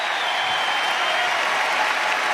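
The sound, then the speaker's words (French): A tennis crowd in the stands applauds and cheers on Gaël Monfils near the end of a match, a dense, steady rush of clapping with no break, held at an even level. “Écoutez le public qui est en train d'encourager Gaël Monfils.”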